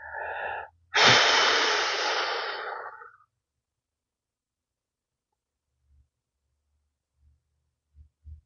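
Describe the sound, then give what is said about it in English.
A deep breath: one long, loud, airy rush of breath lasting about two seconds, followed by near silence broken by a few faint low thumps. “I'm just going to take a breath because I felt that like deep”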